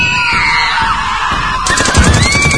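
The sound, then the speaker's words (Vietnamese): Gunfire during an attack on a village where firebrands are thrown onto roofs. Rapid repeated bursts of shots come in the second half under a shrill, sustained wailing tone that runs through the whole clip, all loud. “Một phát súng nổ, một mồi lửa ném tung lên, rồi những phát súng, những mồi lửa điên tiết.”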